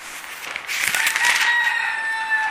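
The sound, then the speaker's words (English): A rooster in a backyard crows once, a loud, drawn-out call that rises into a strained shriek and then holds a long, thin, sustained note to the end. “We have roosters in the backyard.”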